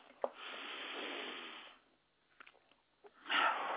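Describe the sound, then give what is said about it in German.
Deep breathing in and out during a guided belly-breathing exercise: one long, airy breath, then a quiet pause with a few small clicks, then another breath swelling at the end. No voice. “Einatmen, ausatmen, weit werden bitte.”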